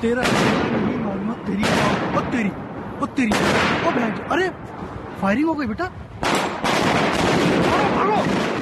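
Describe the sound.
Gunfire during the terrorist attack on the Champs-Élysées in Paris: several sharp, loud bangs ring out among voices, with bursts of shots separated by brief lulls.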